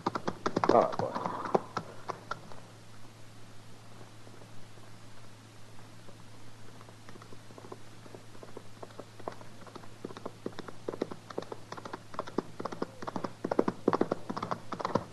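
Hoofbeats of a horse galloping hard in open country, heard as many quick, faint, irregular clops and taps running throughout, with a slightly stronger burst near the start.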